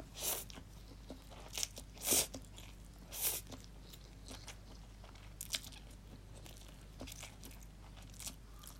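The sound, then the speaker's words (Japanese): Crunchy biting and chewing of food: several sharp, crisp bursts come at irregular intervals, with softer munching between them, all fairly faint over a low steady hum and with no talking. “半分以上食べたかな。結構減ってるよ。”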